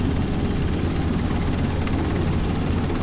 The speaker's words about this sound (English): Where are you going? You're flying the helicopter.